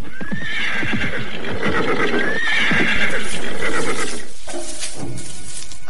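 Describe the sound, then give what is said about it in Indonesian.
A tired horse neighs twice with rising whinnies while its hooves clop beneath, the hoofbeats fading as it comes to a stop. “Tapi lihatlah kuda kita, sudah menjadi semakin limbung. Baiklah, kita berhenti saja sebentar.”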